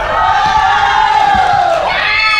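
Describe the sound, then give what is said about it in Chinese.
Fans of a Hangzhou team scream together at a sports match, a loud, shrill, sustained crowd roar that holds steady for about two seconds and then wavers briefly near the end. “那么接下来是杭州市一队粉丝尖叫声是在哪里？”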